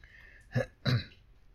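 Someone clears their throat in two short, rough bursts, the second slightly longer and louder, alone against near silence.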